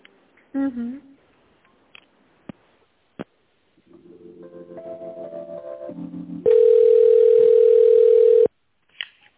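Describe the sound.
Telephone tones sound while a call is transferred: a few sharp clicks, a pulsing stepped tone sequence that rises in pitch, then a long steady beep before another click.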